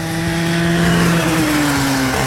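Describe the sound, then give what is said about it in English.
A go-kart engine drones steadily on the race track at Leisure Park in Sedalia, a loud, sustained buzzing tone that dips slightly in pitch toward the end. “Burn rubber as you go around the track in a go-kart race.”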